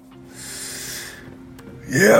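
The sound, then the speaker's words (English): A person's vocal groan while stretching: a drawn-out, low voiced moan with breathy hiss, then a louder, strained rising exhale at the end. “excuse me. Yeah, I know, it's just what you want to hear. Somebody stretching. Sorry, that was just totally impromptu.”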